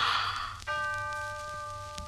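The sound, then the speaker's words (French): A neighbouring clock strikes once with a bright, bell-like chime that rings on with a long, steady tone, after a soft breathy rush at the start. “l'heure sonne à l'horloge voisine.”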